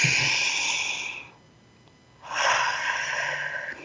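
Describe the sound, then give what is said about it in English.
A deep breath comes as two long, airy, hissing breaths about a second apart, each steady and calm, with no talking. “And when you're ready, take another deep breath.”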